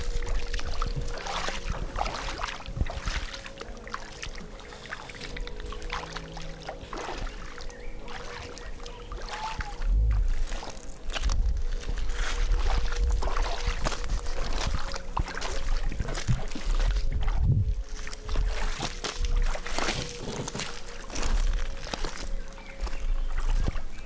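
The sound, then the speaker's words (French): Footsteps slosh and splash through shallow water in a steady, irregular stream of watery splashes and trickles. The sound grows louder and heavier in the second half, with occasional deeper plunges. “Est-ce que tu peux te taire et marcher dans l'eau”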